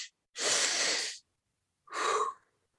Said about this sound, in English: it's two inhales followed by an exhale, long extended exhale